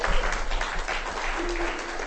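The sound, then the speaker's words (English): Audience applause at a literary reading, a short burst of steady clapping at moderate loudness that stays even throughout, with no voices over it. “Michael Bradley, give him a hand.”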